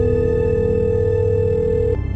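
A steady telephone dial tone hums from a phone booth handset while a call is being placed. The buzzy, even tone holds at a constant pitch, then cuts off abruptly just before the end.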